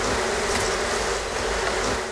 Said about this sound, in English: Bees make honey in their homes, known as hives, and beekeepers make money selling that honey.